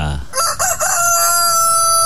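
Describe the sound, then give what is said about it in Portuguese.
A rooster crows in the early morning with one long, loud call that rises in a few bright harmonic bursts and then holds a steady strained tone until the end. “É o Galo cantando”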